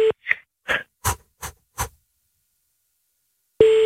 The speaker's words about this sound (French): On l'entendait très, très mal. Donc là, on va la rappeler.